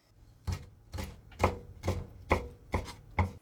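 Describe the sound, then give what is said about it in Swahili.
Knife chopping prawns into one-centimetre pieces: seven crisp, evenly spaced chops on a board, each a sharp thud with a short bright click, with no talk. “Katakata kamba kwa urefu wa sentimita moja kiukubwa na waweke chumvi kiasi na pilipili manga.”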